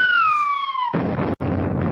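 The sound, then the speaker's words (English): A bomb-drop sound effect: a whistle that slowly falls in pitch, then cuts into a loud, sustained rumbling blast that briefly drops out before roaring on. “So you know what that is? It's a bomb dropping moment right there.”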